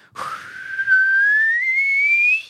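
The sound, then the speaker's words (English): Whistling from a person imitating a hobgoblin's whistled signal during a fantasy tabletop game. A single sustained whistle, clear and fairly loud, with its pitch rising steadily across about two seconds before it stops. “makes a whistled signal”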